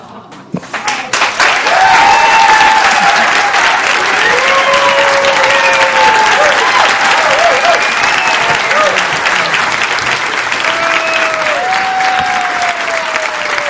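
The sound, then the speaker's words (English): An audience gives a standing ovation, loud sustained applause that swells quickly at the start and then holds steady. Voices call out and cheer over the clapping. “After telling her story, Dawn got a standing ovation from the audience.”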